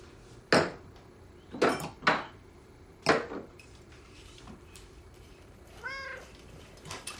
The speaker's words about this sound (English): A cat sits on the countertop and greets him.